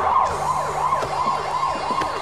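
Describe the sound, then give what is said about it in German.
A speeding police patrol car's siren wails loudly and without a break, sweeping quickly up and down in pitch over and over, with a low engine rumble underneath. “Ein Streifenwagen raste an uns vorbei, mit heulender Sirene.”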